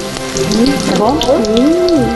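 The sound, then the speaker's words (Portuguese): Peixinho leaves fry in a pan at home, giving off a steady, loud sizzle with fine crackling throughout. “A mãe frita a delícia do almoço e a filha come antes da hora.”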